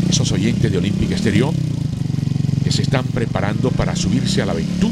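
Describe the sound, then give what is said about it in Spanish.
Suzuki TR560X motorcycle engine running, a low, even, rapidly pulsing throb that continues steadily underneath a man talking over it. “Se enciende la moto. Esa motocicleta puede ser suya.”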